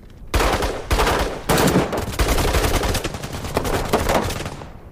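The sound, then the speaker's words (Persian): Gunfire in a dramatized shootout where a shot misses its target: a few heavy, loud blasts give way to sustained rapid fire that fades out at the end. “دیاکو به سمت شلیک میکنه، بهش نمیخوره.”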